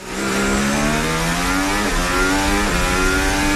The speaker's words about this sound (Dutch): dit is het onboordgeluid vanaf de auto van Verstappen... die het duidelijk beter doet dan